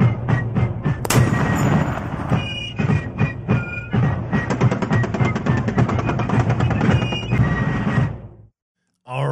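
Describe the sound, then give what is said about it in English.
A gunfire sound effect rattles out in dense, rapid bursts of many loud shots that run almost continuously before stopping abruptly near the end. “I need to hear the guns.”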